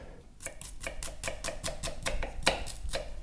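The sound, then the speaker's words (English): A dull kitchen knife chopping red onion on a board, with many quick, evenly spaced cuts in a steady rhythm, faint and alone. “that knife needs help. Oh, yeah. That's a little bit of red onion.”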